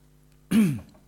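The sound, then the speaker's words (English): A single short throat clearing, a brief, gravelly vocal rasp that rises and then fades, heard alone with no speech. “excuse me, got something caught in my throat.”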